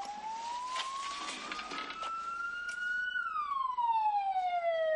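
A vehicle with a wailing siren passes by. The loud tone climbs slowly, then drops steadily in pitch as it goes past, and it grows slightly louder toward the end.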